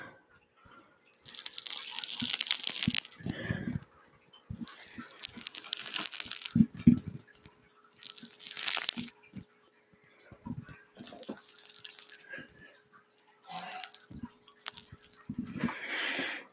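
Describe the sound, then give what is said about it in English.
Crackling, crunchy scrunching of a Rice Krispie treat squeezed into a ball, heard as several separate bursts of crinkly crackle with short pauses between them, and no talking. “Now I'm gonna scrunch a Rice Krispie treat into a ball.”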